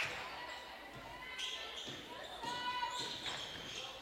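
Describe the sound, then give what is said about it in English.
Faint basketball dribbling during a game: a few soft, scattered bounces under voices and other court noise. “Dribbling left.”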